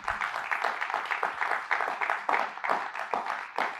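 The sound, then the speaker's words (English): Applause from an audience at a newspaper's gathering, held in honour of a guest. Fairly faint, brisk clapping comes in many quick bursts that rise and dip in a choppy but continuous pattern. “we should probably just start up front so you can give her one of the first of many rounds of applause.”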